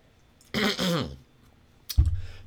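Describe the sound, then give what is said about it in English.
Throat clearing from someone with something stuck in the throat: two short, rough bursts, the second ending in a low, grunting rumble. “excuse me, I'm so sorry, I've got like something stuck in my throat.”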